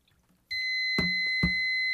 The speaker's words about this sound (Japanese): コップにお水を、つぎますと、上から1センチ程度のところまで行きますとピッと鳴り出すという仕組みなんです。それではちょっとお水を入れてみましょう。